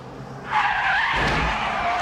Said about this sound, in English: Like, a car swings by him. He dodges it. And then another car just bloosh blasts him onto a cab.